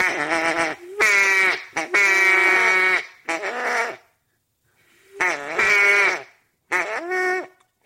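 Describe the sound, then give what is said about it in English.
A duck call is blown to imitate a hen's quack, giving raspy, nasal quacks in several short bursts with clear pauses between them. “Now you figure out how to quack like that.”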